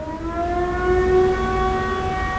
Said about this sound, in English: But on the first Wednesday of every month, they test the air raid sirens for, like, about a minute.